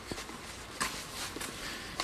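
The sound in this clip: Soft, irregular footsteps walk between terraced houses on a drizzly afternoon, the faint steps sitting over a steady background hiss.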